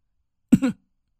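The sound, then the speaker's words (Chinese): A single short dry cough, made deliberately, sounds once as a brief throaty burst with no other sound around it. “我故意干咳了一声。”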